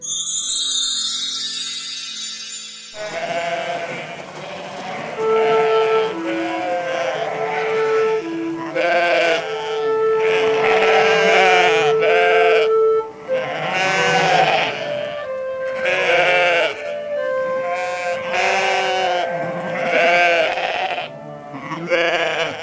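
A flock of sheep grazing on grass bleats over and over, many overlapping wavering cries in a dense, loud chorus that continues throughout.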